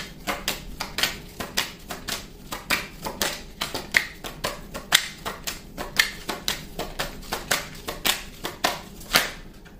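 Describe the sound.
Tarot cards are shuffled and drawn in a quiet, rhythmic series of many crisp, papery riffles and taps that recur steadily throughout.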